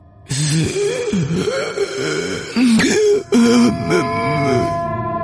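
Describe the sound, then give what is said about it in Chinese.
Harsh coughing and throat clearing from a person who seems about to suffocate, followed by quick, strained, gasping breaths that rise and fall in a series of voiced hacks and wheezes. “可是咳嗽声停止之后，紧接着就是一阵急促的吸气的声音。那个人似乎马上就要窒息了，正在拼命的往肺里面吸着空气似的。”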